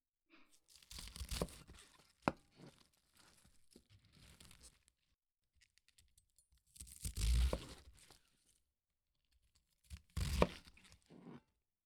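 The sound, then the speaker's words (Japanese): A sharp kitchen knife slices through cabbage without force, making crisp crunching and tearing sounds in three separate bursts with quiet gaps between. “まずはキャベツ、切ってみますね。すごい、力を入れなくてもスッと切れます。”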